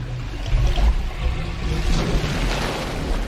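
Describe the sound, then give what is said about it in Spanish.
Water draining away as its level drops, a steady broad rushing and gurgling with a deep rumbling undertone that carries on throughout. “¿Qué es ese ruido? Ay, no. Ve lo que haces. El agua desciende. ¡Está descendiendo!”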